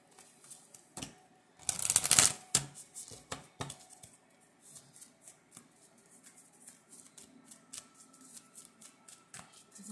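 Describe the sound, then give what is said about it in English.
A deck of compliment cards is shuffled, with a short dense riffling burst followed by scattered soft taps and handling clicks that continue quietly to the end. “Let me go ahead and get you a compliment card, though. I can do that.”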